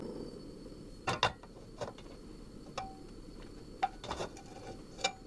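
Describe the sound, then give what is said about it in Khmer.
A gas stove is lit under a cooking pan, giving faint, scattered sharp clicks and light metallic taps spread irregularly across several seconds. “យើងចាប់ផ្ដើមបើកភ្លើងដាក់ខ្ទះនៅលើភ្លើងនៅលើភ្លើងហើយបើកវាក្តៅបន្តិច”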